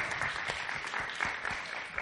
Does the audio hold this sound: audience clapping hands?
yes